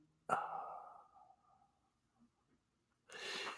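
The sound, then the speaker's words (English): Two breaths, in and then out: a sudden voiced, sighing breath that fades over about a second, a stretch of near silence, then a softer, airy exhale near the end. “We are going to exhale, okay? So we will breathe in and then out.”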